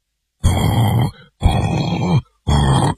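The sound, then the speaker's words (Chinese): A voice imitating snoring during a storytelling performance about four men pretending to snore: three loud, harsh, rasping grunt-like bursts, each about half a second to a second long, separated by brief silences. “四个人啊比赛着打呼噜”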